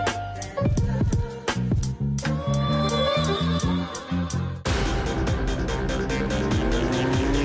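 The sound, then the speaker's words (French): Racing cars at a motor racing Grand Prix in Trois-Rivières roar loudly and without a break. Engines rev in repeated rising surges, and the sound shifts abruptly to a denser, harsher texture partway through. “Deux fins de semaine de course automobile envahissent la ville de Trois-Rivières.”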